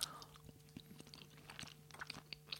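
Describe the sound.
Soft chewing of crumbly, almost powdery food with a nutty, almond-like character, similar to halva. There are many small, faint crunchy bites in an irregular rhythm, with no talking.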